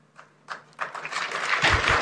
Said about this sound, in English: And then a smattering of applause there.